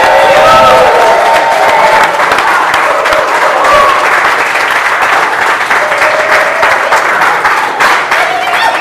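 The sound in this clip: Audience applause and cheering at a live show: dense, sustained clapping that fills the whole stretch at a steady, loud level, with a few voices mixed into the crowd noise.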